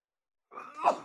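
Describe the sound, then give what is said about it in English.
A single short sneeze, a quick breathy burst that swells to a peak and fades, alone against silence. “Oh, bless you.”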